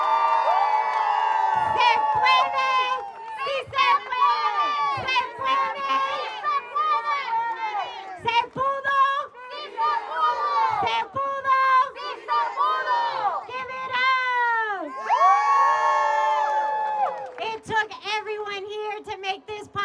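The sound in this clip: An audience at a rally of tenants, organizers and city council leaders cheers for a newly won policy, with loud whoops, shouts and many excited voices that swell and fall continuously throughout.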